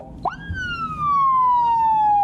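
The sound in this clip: A police traffic patrol car's siren sounds alone. A short chirp is followed by a loud wailing tone that climbs quickly, then slides slowly and steadily down in pitch until the end.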